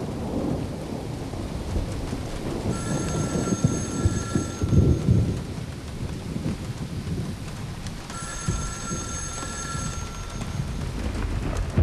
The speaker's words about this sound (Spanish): ¡Ah! Me encantan las tormentas con rayos.